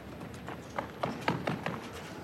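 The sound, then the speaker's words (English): Heavy footsteps of ball girls on a tennis court during a final, a series of dull thudding steps in an uneven rhythm over a low background hum. “Very heavy footsteps from ball girls today.”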